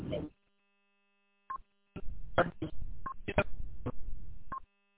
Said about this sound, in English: My phone just made some funky beeps.